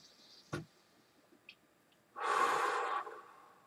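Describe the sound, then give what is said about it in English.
A single deep breath taken alone: a soft, airy rush of air lasting under a second, preceded by a faint brief click and a couple of tiny ticks. “Take a deep breath.”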